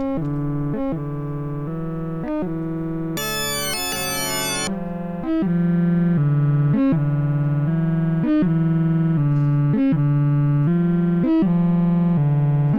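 A synthesizer patch reworked for a synth battle by twisting knobs and pushing buttons: a deep, buzzy tone pulses in a steady repeating loop, broken early on by a brief burst of bright, noisy texture.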